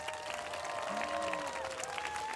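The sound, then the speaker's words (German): Audience applause welcoming two world-class dancers onto a show: a dense, steady wash of clapping that stays even in loudness for the whole stretch. “Ein Applaus für Maya Pahari und Robert Bischoff.”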